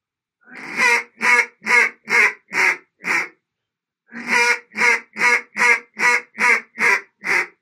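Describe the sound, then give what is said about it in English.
Duck call blown as a greeting call: two runs of loud, raspy, evenly spaced quacking notes separated by a short pause, with no voices. “Let's do a greeting call, which is going to be a 5-note series.”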